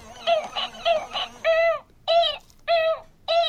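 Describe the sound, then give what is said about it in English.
Cooing calls from a porg, a half-puffin, half-seal creature: a quick run of short chirpy coos, then four longer, clear, tuneful calls separated by brief pauses. “there were Porgs, the half-puffin, half-seal that make this sound.”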